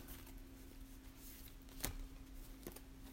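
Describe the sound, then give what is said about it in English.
Tarot-style oracle cards being shuffled, a soft, faint papery rustle with one sharper slap of cards near the middle. No talking is heard. “Answer a Simple cards, let's see what comes up for us in our Answer a Simple cards. All right, see if there's anything falling out today.”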